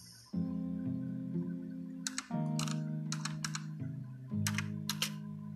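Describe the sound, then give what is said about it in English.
Rapid clicking of a computer keyboard as someone types a search for system requirements, arriving in a few quick bursts of keystrokes over a steady low musical drone. “I'm trying to find the requirements. I'll just type that in.”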